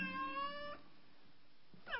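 A cat meows twice: a long, clear, tonal meow at the start, then a quieter stretch, then a short second meow near the end.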